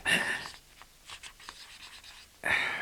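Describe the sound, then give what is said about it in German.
Pen scribbling a message on an envelope in quick, scratchy strokes, quiet and uneven, framed by louder noise at the start and end. “Etwas krakelig, aber doch lesbar, kritzelte er dann noch eine Botschaft auf den Umschlag.”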